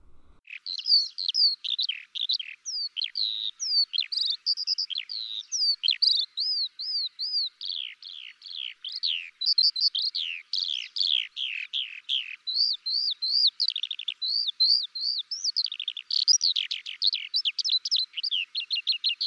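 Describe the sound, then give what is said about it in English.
A skylark sings a long, unbroken song of rapid, high-pitched warbling trills and chirps that run continuously and fairly loudly throughout, with no voices. “The skylark is the voice of spring and one of the first to be heard during the dawn chorus.”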